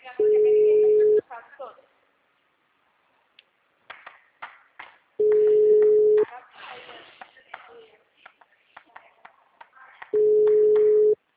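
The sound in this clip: A telephone line tone after a dropped call: three steady, mid-pitched electronic beeps, each about a second long and spaced roughly five seconds apart, with soft clicks, shuffling and faint voices in the gaps between them.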